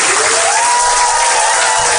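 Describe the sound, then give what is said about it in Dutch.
Audience applause: a dense, steady wash of many hands clapping, fairly loud and unbroken for two seconds, with faint crowd voices mixed in. “Dames en heren, mag ik nog een applaus voor Louis, Marcel, Mickey, Maria, Yvonne, Carla en Magda.”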